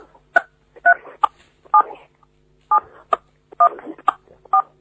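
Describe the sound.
Telephone dialing tones on a phone-in line as a call connects: many short, clipped two-tone beeps in an uneven rhythm, separated by brief silences, with no talk.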